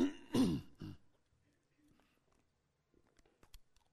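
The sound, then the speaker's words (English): Throat clearing as an audience is invited to clear their throats together: one loud, rough clear at the start, then near quiet with a few faint scattered noises. “Everybody wants to clear their throat. Let's all do it. Let's do it now. Let's get it over with, right?”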